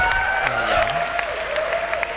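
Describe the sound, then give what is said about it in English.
Audience applause in a theater during a video game showcase: dense, steady clapping that holds at an even level for about two seconds, with faint tonal sounds running beneath it. “everybody clapping is in the back of the theater because they were late.”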